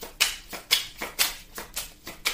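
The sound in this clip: Tarot cards are handled and shuffled during a reading, making a quick run of crisp papery riffles. Several short, bright bursts repeat in an even rhythm at roughly half-second intervals, with no talk.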